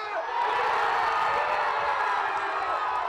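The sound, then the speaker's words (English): A Premier League football crowd roars as Leicester City scores against Manchester United, a sudden swell of many cheering and whooping voices that stays loud and sustained throughout. “That's the sound of Leicester City scoring Sunday.”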